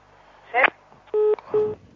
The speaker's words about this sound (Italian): Sembra che qualcuno voglia disturbare la trasmissione con telefonate stupide